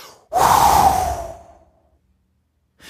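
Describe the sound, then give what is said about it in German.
A deliberate, forceful exhalation during a breathing exercise: one loud, breathy rush of air pushed out hard, fading over about a second into silence. “jetzt werden wir bewusst, ausatmen und du wirst in diesem Moment richtig die Atmung aus dir hinauspressen”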